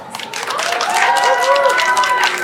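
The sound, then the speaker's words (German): Audience applause welcoming a guest to a show featuring German music newcomers: dense, steady clapping rising quickly to full strength and holding, with cheering voices mixed in. “Mach mal lieben Applaus für den wunderbaren Zack.”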